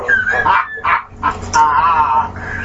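A dog whines and yips in a series of loud, high-pitched whimpers, several broken bursts followed by a longer drawn-out whine.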